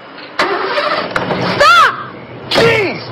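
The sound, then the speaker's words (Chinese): A car engine cranks and starts, giving a loud broad roar from early on with two sweeping whines as it catches and revs near the end. “他发动了汽车”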